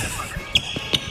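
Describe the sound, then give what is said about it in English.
Shoes squeak on a gym floor: two brief, sharp, high-pitched chirps a short moment apart, fairly faint over a low background. “That is the sound of shoes squeaking on a gym floor.”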